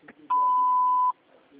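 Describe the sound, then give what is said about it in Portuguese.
Answering machine beep: one steady, clean, mid-pitched tone lasting under a second, rising out of faint background noise and ending abruptly. “Olá, no momento não podemos atender. Deixe seu recado após o sinal que entraremos em contato.”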